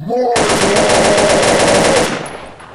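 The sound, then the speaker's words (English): Machine guns on the Batwing fire at Doomsday in a Batman film, a loud rapid burst of automatic gunfire in a steady rattling rhythm that lasts under two seconds and then fades away. “And then uses guns on the Batwing against Doomsday.”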